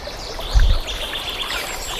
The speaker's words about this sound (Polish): Z nami strumień, z nami ptaki.